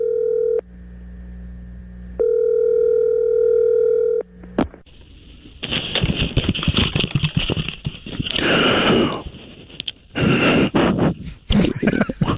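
Telephone dial tone on a call to an old-fashioned dial-in sports hotline in deep East Texas. A steady tone drops briefly, then returns loudly. A click follows, then a long stretch of dense, noisy sound.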